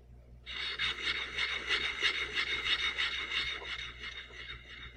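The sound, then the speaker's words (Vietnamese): Steady rasping scrape of an ink stick ground with water on a stone palette; the stick is made from pine-root soot mixed with oil and animal glue. The grinding starts after a brief pause and continues without break, with a gentle pulsing rhythm and no talk. “Âm thanh mà các bạn đang nghe là tiếng mài mực với nước.”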